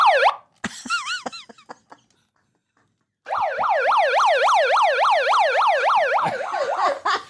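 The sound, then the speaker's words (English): Emergency vehicle siren in a fast yelping wail, its pitch sweeping rapidly up and down many times in a loud, continuous run. Before it come a few brief rising chirps and then a short silence. “I'd like to apologize for the siren.”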